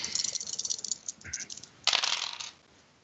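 Dice rattle and clatter during a tabletop game, one of them an eight-sided die: a quick run of light clicks, then a louder burst of tumbling before it settles.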